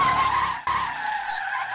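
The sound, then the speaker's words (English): A car skids with a loud, steady tire squeal. The shrill, whining tone carries strong overtones, dips briefly partway through, and a higher hiss joins it near the end. “it was either stop and skid like he did, or just, you know, gas is your friend.”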